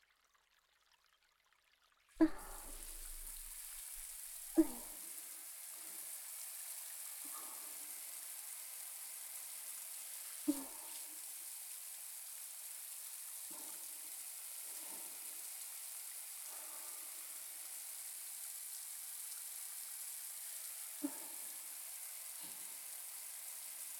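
Running water pours steadily as hair is washed, a continuous hiss starting after about two seconds and lasting to the end, with a few faint soft knocks.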